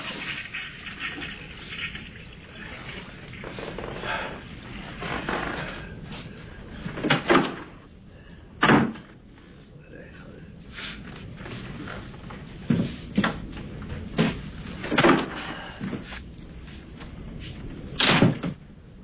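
A toilet door closing in an apartment gives faint knocks and thumps spread across a long stretch, with several sharper bangs standing out from quiet rustling.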